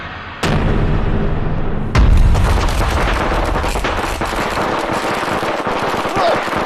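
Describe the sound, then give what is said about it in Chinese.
An explosive pack stuffed with firecrackers goes off in two sharp, loud blasts, then a dense, continuous crackling and rumbling roar carries on to the end. “响了，完了！ 威力，威力大呀！ 大什么大？这太危险了，这搞不好把咱们自己都炸了。”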